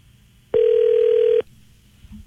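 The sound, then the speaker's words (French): A single ringback tone on a telephone line after a call is dialed: one steady, mid-pitched electronic tone lasting just under a second, then a quiet line. “on compose, ça va sonner”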